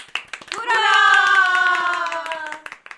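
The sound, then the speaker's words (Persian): Hands clap in a steady group round of applause, loud and continuous throughout, with a long held, tonal cheer-like voice ringing over the middle stretch. “آفرین، یک کف مرتب برای خودتون بزنید.”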